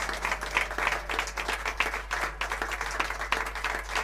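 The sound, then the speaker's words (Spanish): Applause from an audience welcoming a performer, a dense, even patter of many hands clapping for about four seconds with no voices standing out. “Leonardo Rodríguez, otro aplauso”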